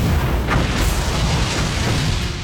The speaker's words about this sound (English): the trailer starts with a rocket taking off into space